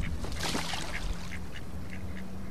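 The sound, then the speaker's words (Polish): An Icelandic duck quacks a few times in quick succession, coarse nasal calls set against a dense, noisy background. “To co słychać? To islandzka kaczka.”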